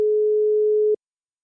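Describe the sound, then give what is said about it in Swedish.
Telephone ringing tone after dialling a number: one steady, mid-pitched electronic beep lasting about a second, then abrupt silence. “Jag slår in numret.”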